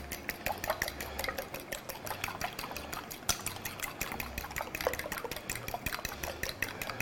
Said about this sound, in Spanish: Tampoco hace falta estar 6 horas batiendo. Pero sí lo justo para que la clara no nos queden, ¿eh? Tiras de esas de clara que luego se quedan ahí.